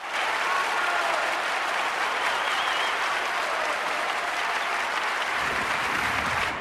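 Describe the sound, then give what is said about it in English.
Dense, sustained applause from an audience giving a standing ovation after a stage piece performed with a puppet, a thick wash of many clapping hands that holds at steady full strength throughout. “The audience give the piece a standing ovation, and Malkovich and the puppet take a bow.”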